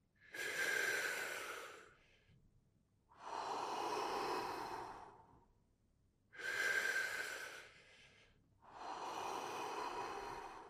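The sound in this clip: Deep breathing in a guided breathing exercise: four long, loud, airy breath sounds of about two seconds each, separated by short quiet gaps, forming two slow cycles of inhaling and exhaling.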